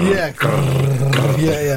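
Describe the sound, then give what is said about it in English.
A voice imitates the whirr of an old film projector with a low, steady, buzzing hum held for nearly two seconds, broken by one short gap near the start. “the only sound you can hear for the majority of it is that sound that film projectors used to make”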